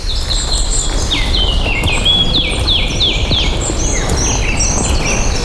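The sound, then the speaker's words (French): Birds sing along a cold, damp, waterlogged trail, with many repeated high chirps that each slide quickly downward in pitch, over a steady, loud hiss of background noise. “Mais les oiseaux enchantent cet univers plutôt assez froid et humide.”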